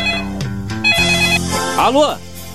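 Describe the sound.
Telephone ringing, with a shrill, repeated electronic ring mixed under overlapping voices talking.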